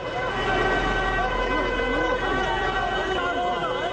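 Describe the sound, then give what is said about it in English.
Emergency vehicle sirens wail continuously as the vehicles close in on a burning vehicle in Gaza City, several wavering tones overlapping loudly against a steady rumble of traffic. “Here is the sound of emergency vehicles descending on a burning vehicle in Gaza City.”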